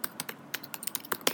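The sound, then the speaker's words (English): Quick, uneven tapping on a computer keyboard during a Google search: many light, sharp key clicks in a soft stream, with no talking. “This is the sound of me Googling it.”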